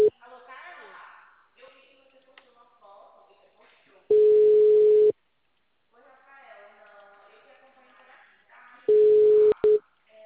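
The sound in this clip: Ringback tone of an outgoing phone call: two long, steady mid-pitched beeps separated by several seconds, with people talking quietly before and between them.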